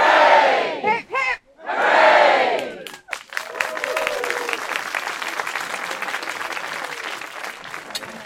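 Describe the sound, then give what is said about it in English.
A crowd gives three cheers for veterans, loud group shouts of hip hip hooray ringing out, then giving way to sustained clapping and cheering. “Can I just ask everyone to give us three cheers for the veterans, to say thank you for their service and for keeping that secret for all those years.”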